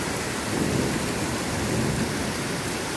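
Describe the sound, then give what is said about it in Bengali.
Thunder rumbles low and swells under heavy rain that pours with a steady, dense hiss throughout, the rumble fading back into the downpour. “আমিও এই বজ্রপাতে একটু ভয় পেয়ে গেলাম।”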